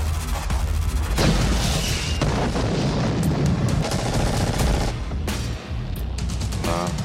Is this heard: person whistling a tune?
no

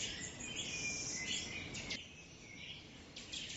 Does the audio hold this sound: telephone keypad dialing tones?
no

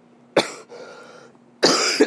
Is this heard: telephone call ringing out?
no

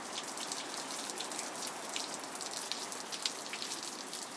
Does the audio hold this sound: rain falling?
yes

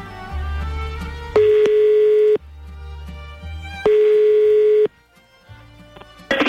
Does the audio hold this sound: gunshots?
no

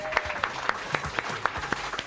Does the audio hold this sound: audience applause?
yes

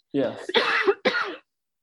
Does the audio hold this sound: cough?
yes

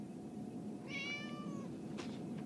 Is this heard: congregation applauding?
no

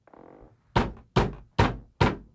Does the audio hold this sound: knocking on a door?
yes

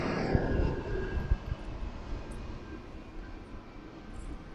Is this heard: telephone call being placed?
no

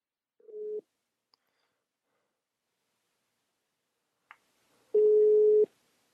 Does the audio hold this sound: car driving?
no

